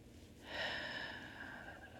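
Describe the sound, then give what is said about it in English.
A deep breath drawn in and let out: a faint, soft airy hiss that swells after a short quiet moment, then trails on steadily. “Take that deep breath in. And when you exhale, let it all out.”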